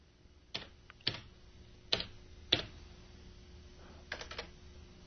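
Slow typing on a computer keyboard: a few scattered, crisp key clicks separated by long pauses, the last ones coming as a quick cluster, all fairly quiet over a low background hum.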